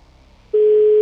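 A telephone tone on an outgoing call that goes unanswered. After a brief quiet, a single steady pure tone starts abruptly and holds at an even level to the end.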